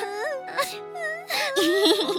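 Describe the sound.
Tearful whimpering and sobbing from a high-pitched voice, broken into short wavering cries with trembling, uneven pitch and catches of breath between them.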